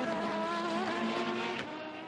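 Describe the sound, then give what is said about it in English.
Race car engines howl steadily as an Aston and a Genesis run up through the first corner into the Dunlop chicane during a practice session, a continuous high whine with shifting harmonic tones and no talk. “Aston versus Genesis going up through the first corner into the Dunlop chicane.”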